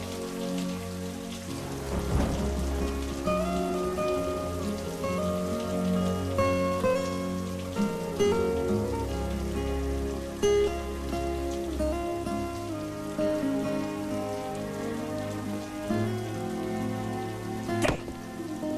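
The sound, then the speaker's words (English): Rain falls at night beyond a porch, a dense, even patter of drops that carries on throughout. Low sustained tones sit beneath it, and a brief sharp hit comes near the end. “Tears streaming down his cheeks, Rob looks out from the porch into the rain and darkness.”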